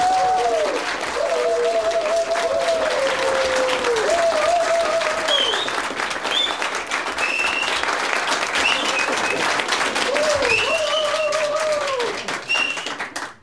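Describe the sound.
An audience at an entertainment show applauds loudly, with sustained dense clapping and high whooping hoots rising and gliding above it throughout, fading out at the very end.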